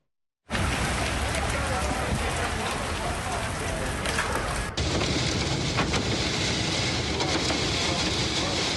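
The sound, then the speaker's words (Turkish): Storm wind and heavy rain battering a school in Gaziantep: a loud, unbroken roar of driving rain and gusts. It sets in abruptly and stays dense throughout, with a brief dip about halfway. “Çatı, cam, kapı, dış cephe kaplamaları yerinden söküldü, fırtına okulu kullanamaz hale getirdi.”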